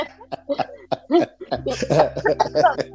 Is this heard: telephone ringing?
no

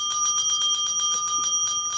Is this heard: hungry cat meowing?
no

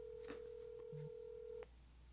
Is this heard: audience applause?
no

